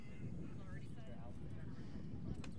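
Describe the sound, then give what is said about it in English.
Wind whipping around a ballpark in Nokomis during a baseball game: a steady, low, rumbling buffet of wind under a commentator's voice. “Wind whipping around here in Nokomis.”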